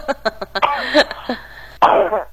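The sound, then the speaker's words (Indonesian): A person coughing, likely blamed on hot, dry weather: a series of short, harsh bursts, then a longer rough, strained stretch, and one more forceful cough near the end. “Batuk lagi.”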